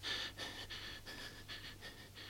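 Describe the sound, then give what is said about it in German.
Labored, restless breathing from someone unable to sleep: a quick rhythmic series of faint, hissy breaths, steady and unbroken, with no talking. “Sie atmet mühsam.”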